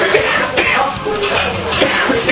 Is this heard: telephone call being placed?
no